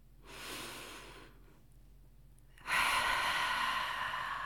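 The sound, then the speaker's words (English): A deep breath drawn in through the nose: soft, airy breathing in two long stretches, the second louder and steadier, with no talking. “So just take a deep breath in through your nose.”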